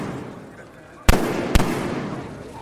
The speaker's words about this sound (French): 3 coups de feu et une clameur d'effroi qui s'élève au-dessus de la foule.